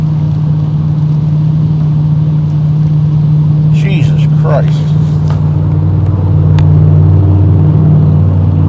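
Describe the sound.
Loud engine drone of a car running without a muffler, a heavy, steady low rumble that grows slightly louder near the end, with a man briefly exclaiming over it partway through.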